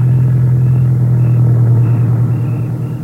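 A car engine rumbling as the car drives off with a man at the wheel, a steady loud low drone that fades slightly toward the end, with no voices.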